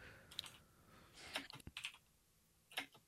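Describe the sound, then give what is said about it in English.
Faint typing of a search query on a computer keyboard: quick light key clicks come in irregular bursts, with a dense cluster in the middle and a short burst near the end. “I'm just gonna type Emo Phillips Bitcoin joke.”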